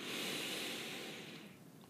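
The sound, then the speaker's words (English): One deep, slow breath, taken during a calm relaxation exercise, is a soft airy hiss that gently fades away. It is quiet and has no talk over it. “Let's just take a couple of deep breaths.”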